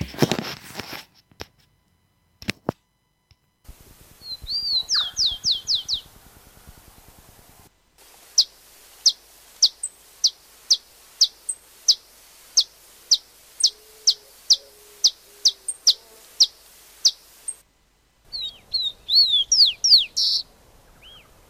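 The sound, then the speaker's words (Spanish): Rufous-collared sparrow singing: loud, sharp whistled notes and quick high trills, heard alone. A run of evenly spaced single notes sits between short bursts of rapid trilling. “estamos escuchando ahora el chingolo”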